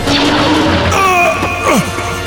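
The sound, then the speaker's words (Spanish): Sword strike in a dramatized duel: a loud crashing hit with ringing, metallic tones that trail off, set within a dense, continuous bed of other sound. “con un golpe certero de la espada de Miguel”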